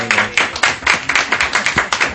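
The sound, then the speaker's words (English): Audience applause, loud and fast, with many sharp claps in a quick, fairly even rhythm throughout. “We also have a shortfall of applause, so you should.”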